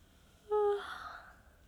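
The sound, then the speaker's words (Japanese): A person's yawn: a single loud voiced onset that trails off into a fading, breathy exhale, alone in a quiet background. “あ、ごめん。あくび出ちゃった。”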